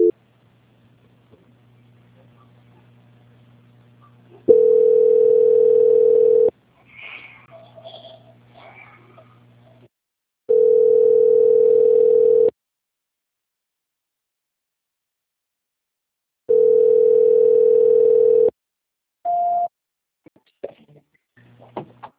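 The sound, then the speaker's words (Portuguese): Telephone line tones during a call transfer: three long, steady mid-pitched tones of equal length, evenly spaced by silences, then a short higher beep, with faint background noises between them. “que nós vamos transferir essa ligação.”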